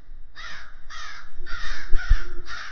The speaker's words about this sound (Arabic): بقالي أكتر من شهر بصحى على صوت غراب. أقدر أقول إن ده اللي بيصحيني من النوم.